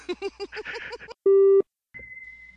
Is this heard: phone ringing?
yes